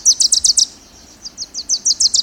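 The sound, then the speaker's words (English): Wilson's warbler song, a tiny yellow bird of dense thickets in humid boreal coastal forest, with two bursts of quick, high, dry chip-like notes repeated in a rapid trill, loud and alone over quiet background. “It's the tail end of summer, and the Wilson's warblers had a busy few months.”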